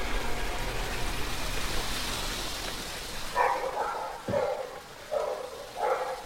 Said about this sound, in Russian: После входной двери лает собака.